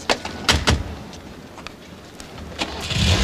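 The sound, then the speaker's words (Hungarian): A car engine starts with a warm clutch: a few sharp clunks come first, then a low rumble builds and grows louder toward the end. “Kicsit meleg a kuplunk, haver, óvatosan indíts el.”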